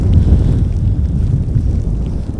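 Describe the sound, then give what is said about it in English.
Wind blowing cloud and fog through on a cold, damp day, buffeting as a steady low rumbling roar that fills the whole stretch without a break and with no voices. “this wind that's blowing this uh, cloud through has got a bit of a chill.”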